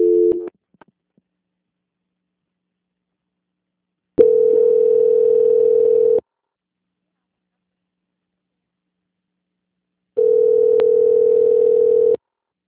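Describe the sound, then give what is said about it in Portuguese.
Telephone line tone while a call is transferred: a short tone at the start, then two long, steady, identical tone bursts of about two seconds each, separated by several seconds of silence. “A ligação ficará em mudo por um instante, mas eu peço que o senhor não desligue, tá ok? Tá ok. Obrigada. Transferência.”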